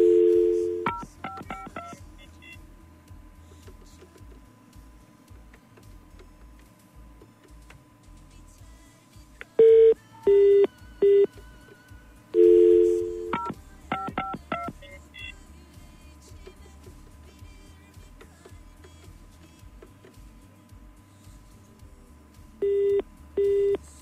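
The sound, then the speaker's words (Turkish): Telephone dialing tones sound during a phone call on a handset that does not ring normally. Loud, flat dual-tone beeps come in a few separate clusters of quick presses, with short bursts between quiet gaps and low hum underneath. “Bu nasıl bir telefon ya? Ne oldu? Yani normal telefon gibi çalmıyor ki.”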